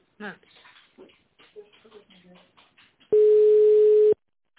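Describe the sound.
A telephone ringback tone sounds while a call is connected to an office extension: after a stretch of talk, one steady, single-pitched tone holds for about a second, then cuts off abruptly.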